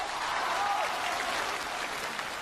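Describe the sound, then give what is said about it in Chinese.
Audience applause at a New Year crosstalk comedy show, following a performer's holiday greeting. A steady, moderate wash of clapping carries on without a break. “大伙儿鼓掌了？ 你没听那个掌声里边都带着嫌弃吗？”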